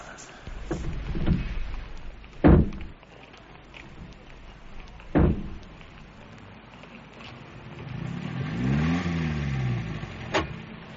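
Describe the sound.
A car starts and drives off. Two sharp thuds like doors shutting come first, then the engine rumbles and revs up, its pitch sweeping up and down.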